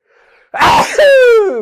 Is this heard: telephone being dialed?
no